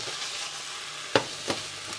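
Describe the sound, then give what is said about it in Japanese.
Rapeseed blossom leaves stir-fry in oil with a steady, hissing sizzle, broken by two sharp clatters from stirring. “いい感じに炒まってきて油と馴染んできたので葉っぱの部分をね入れていきたいと思いますはいザザザっとで炒めますね”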